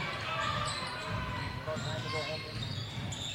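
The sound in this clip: Basketball dribbled on the court during a game: rapid repeated bounces under continuous voices and commentary.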